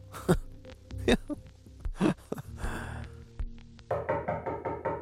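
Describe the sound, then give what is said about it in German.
Knocking on an apartment door: a few heavy, slow thuds spaced about a second apart, followed by quieter low sounds. “Es klopft an seiner Wohnungstür.”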